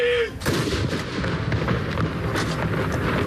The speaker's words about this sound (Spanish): Este es el sonido de los cañones esta mañana en Oslo.